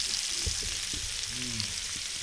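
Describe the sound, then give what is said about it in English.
Bacon sizzling on a griddle: a steady, bright hiss of frying fat, speckled with fine crackles, with a few soft low knocks beneath. “my bacon's back. Oh yeah, that's some good audio right there. Fresh set of bacon on the griddle.”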